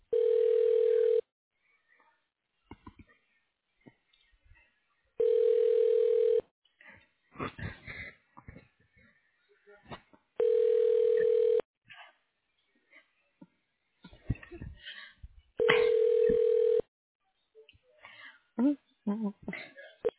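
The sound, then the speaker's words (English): A telephone ringback tone sounds while a call is transferred to an office extension, four steady mid-pitched bursts of about a second each, spaced roughly five seconds apart, with scattered voices and other sounds in the gaps. “Okay, hold on. I'm going to connect you to his extension.”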